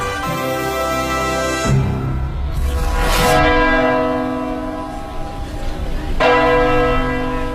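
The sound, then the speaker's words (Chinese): A clear, pleasant school campus bell rings in a few resonant, ringing strikes. Each tone hangs and blends into the next, keeping a steady metallic hum throughout. “伴随着清脆悦耳的校园钟声，女大学生泰丽”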